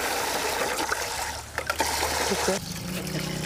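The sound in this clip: Clean water poured over divided sticky rice to soak it: a continuous trickling, splashing stream that stays fairly steady, briefly dipping midway before running on.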